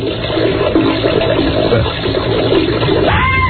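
A toilet flushes, played as a comic sound effect. Water rushes loudly and steadily throughout, then shifts into a gurgling draining sound near the end.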